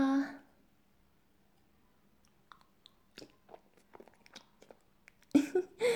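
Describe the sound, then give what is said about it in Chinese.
Faint, intermittent chewing of a fried egg, a scattering of small soft mouth clicks and crunches in the middle, with voices talking before and after. “来，儿子，尝尝我特地给你做的荷包蛋。”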